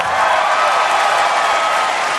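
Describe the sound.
A crowd applauds at a live tribute concert after a rock band finishes a song, producing a loud, dense, unbroken roar of clapping that stays level from start to end.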